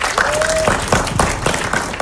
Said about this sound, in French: qu'on retrouve tout de suite et qu'on applaudit.